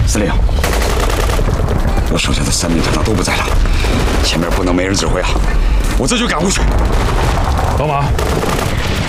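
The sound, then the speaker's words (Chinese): Battle gunfire and artillery from an enemy attack on a city: dense, continuous rapid shots and heavy booms crowd the whole stretch at a loud, steady level, with voices mixed into the din. “报告， 李座，敌人又开始进攻了，陈团长被炮火击中牺牲了。”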